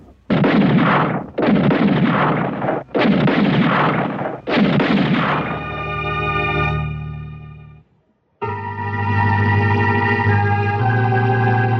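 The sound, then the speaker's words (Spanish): Loud, booming gunshots during a firefight: four heavy blasts in a steady rhythm, each with a rough, rumbling tail, followed by a sustained droning tone. “¡Dispara!”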